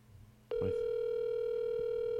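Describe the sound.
A steady electronic phone tone sounds as a call is placed to a mobile number by voice command. After a brief quiet start it sets in abruptly and holds loud and unbroken, with a few faint low knocks underneath.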